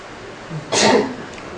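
A single sneeze bursts out as a short, breathy blast of noise. It follows a faint low sound and fades quickly into quiet background hiss.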